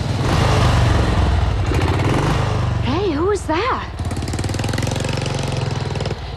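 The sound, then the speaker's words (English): A motorcycle engine rumbles loudly and steadily as the rider comes round a corner onto a road, a dense, continuous drone with no clear rise or fade. “A motorcyclist comes round the corner. They watch him pass.”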